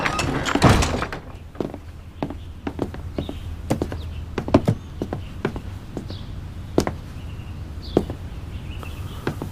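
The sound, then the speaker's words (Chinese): A door is pulled shut with a solid thunk near the start, followed by scattered light taps and knocks at irregular intervals. “把门关上。”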